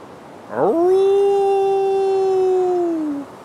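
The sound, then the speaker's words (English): A wolf howls in the distance: one long, clear howl that rises briefly at the start, holds a steady pitch, then tails off near the end. “You can hear a wolf howl in the distance.”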